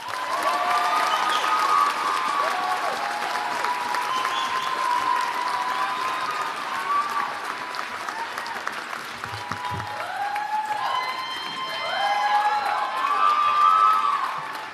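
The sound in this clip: Audience applause and cheering welcome the 2019 student speaker at a School of Education commencement, a dense, steady roar of clapping that lasts throughout, with scattered whoops and a swell near the end.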